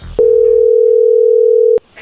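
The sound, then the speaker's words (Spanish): Telephone dial tone heard while placing a call: one steady, loud, unbroken tone lasting about a second and a half, alone, starting and ending abruptly. “vamos a llamarle”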